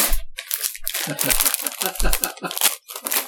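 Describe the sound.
Crinkling of a bag of sour cream and onion potato chips, with many sharp crackly bursts of plastic rustling in an irregular rhythm, and a voice heard at moments.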